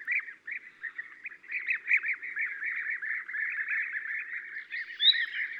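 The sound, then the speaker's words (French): Bee-eaters calling in flight: a fairly faint, continuous chorus of liquid, rolling trilled notes that overlap in a steady stream, with one higher call standing out near the end. “Les guêpiers en vol.”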